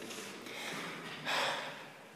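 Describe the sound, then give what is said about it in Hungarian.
A deep breath drawn in, a soft airy intake that swells into a louder rush of air and then eases off. “Veszünk egy-egy nagy levegőt, kétség kívül a mennyből szippantjuk.”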